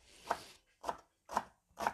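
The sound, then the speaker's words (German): A knife finely chops an onion into small cubes: four sharp, evenly spaced chopping taps, faint and alone without talk. “öfters einschneiden und dann quer dazu fein hacken, dann hast du kleine Würfelchen. Das machst du erstmal mit der einen Hälfte von der Zwiebel”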